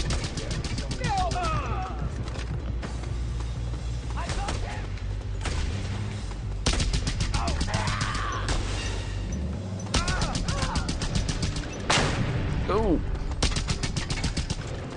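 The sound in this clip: Heavy gunfire from a big gun in a video game rattles in many rapid, dense bursts throughout, with people talking over the shooting.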